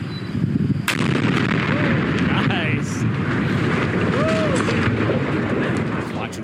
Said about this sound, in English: And they let him blow up the bridge. So he got to push the button and blow the thing up.